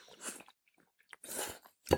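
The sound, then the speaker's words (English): Someone bites into and chews frozen pizza, making a few crisp crunches separated by quiet pauses, with the last crunch the sharpest. “I'm going to take a bite while you guys talk now.”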